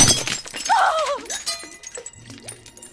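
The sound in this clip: Glass shatters as a fake glass ruby is smashed to test it: a loud, sharp burst of breaking at the start, trailing into fainter tinkling fragments.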